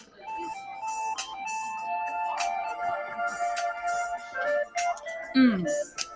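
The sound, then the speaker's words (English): Light, chiming outro music closing a show about games, with bell-like melodic tones at moderate loudness and people talking over it. “This has been the corner episode The corner. We're gonna close with the outro music.”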